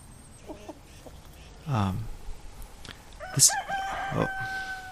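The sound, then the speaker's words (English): A rooster crows on a farm in the morning, a single short, harmonic crow standing out over steady outdoor background noise, with a few brief chirps and calls scattered around it. “This is the morning song of a bird.”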